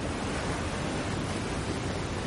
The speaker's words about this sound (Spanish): Desde el puente contempla la fuerza de las aguas.